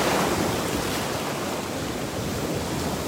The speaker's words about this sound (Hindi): Let's wait for a nice wave.